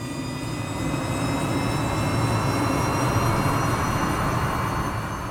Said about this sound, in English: once the engines rev and the plane takes to the sky